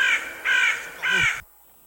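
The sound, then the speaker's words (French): A crow cawing three times, evenly spaced. Each call is a loud, harsh, rasping caw of similar length, with no talk, and the last one cuts off abruptly into near silence. “C'est corbeau. C'est corbeau.”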